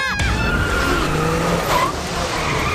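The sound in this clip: Race car tyres squeal at their grip limit during a hard chase in a motor race: a loud, continuous, high-pitched skid whine layered over engine roar, sustained steadily throughout.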